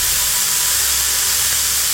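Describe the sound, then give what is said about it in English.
A loud, steady roaring hiss of a superheated magnesium hand flaring and melting a doorknob and lock, continuous and unbroken, with no voices. “I superheat it to the point of combustion. It flares as brightly as a tiny sun, melting the doorknob and the lock.”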